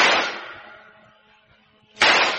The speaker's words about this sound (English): Alto! Alto, I shoot! Thank you for letting me shoot you, Louis Gaspar.